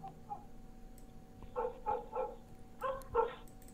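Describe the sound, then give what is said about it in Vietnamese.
A pack of village dogs barks at night, giving a handful of faint, sharp barks in two clusters, with a couple of softer yips before them. No voices are heard. “bầy chó ở trong làng đua nhau sủa lên dâm gian ông ỏng đến điên cả người”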